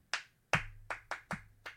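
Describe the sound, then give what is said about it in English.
Six sharp hand claps ring out alone in an uneven rhythm, the first two spaced apart and the rest coming quicker, each with a crisp attack and a short decay. “I needed the claps to remember the name. I really did.”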